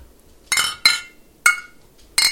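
Glasses clink together in a toast: four bright, ringing clinks at uneven intervals, each sharp and decaying quickly, with no other sounds around them.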